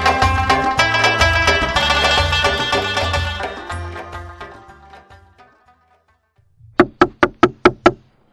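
Knocking on a door in a drama: after music fades to silence, a quick run of about six sharp, evenly spaced knocks sounds alone.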